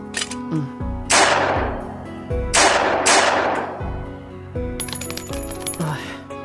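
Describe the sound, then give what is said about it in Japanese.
Pistol gunshots in a tense confrontation: three loud, sharp blasts stand out, each trailing off in a long ringing decay, with lighter clatter between and after them. “アラマトはあいつだと思って撃て。これくらいやれんだろ。”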